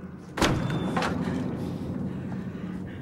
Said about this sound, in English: Billy's sitting in the doorway of the outside toilet, watching with a heartbroken expression and flinching at every blow. The door swings back and forth against him.